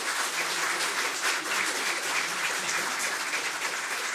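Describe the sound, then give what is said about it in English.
Canned applause from a fake audience: dense, even clapping that holds a steady loud level throughout without pause or voices. “Thank you, fake audience. Thank you so much.”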